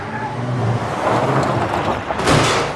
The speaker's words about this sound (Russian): Внезапно к гаражу подъехала Лада и врезается в стену.